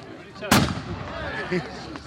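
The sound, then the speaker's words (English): Single loud blast of a large gun fired at a tree in Gloucestershire to drive off evil spirits in a revived old tradition, a sharp crack with a short rumbling tail, followed by people talking. “This rather large gun is going to be fired off now. Let's get rid of those last evil spirits up in the tree there, okay?”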